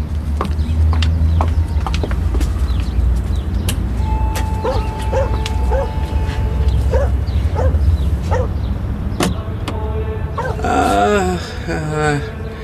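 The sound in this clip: Dog barking at a villa: sharp barks and yips come in short bursts among voices and a steady low background noise, with a cluster of whining, yelping calls near the end.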